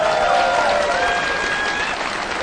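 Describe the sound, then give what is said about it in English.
Audience applause for a group of performers, a steady, dense clatter of many hands clapping that holds evenly throughout, with no voices standing out. “Another hand for the boys here.”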